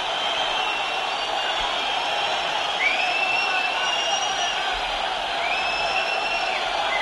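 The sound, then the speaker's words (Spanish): A football crowd at the Benito Villamarín jeers Betis after a 0-1 home loss to Valladolid, a steady roar of booing with shrill whistles rising above it. “La bronca tremenda del Benito Villamarín, se levanta la gente, fuera.”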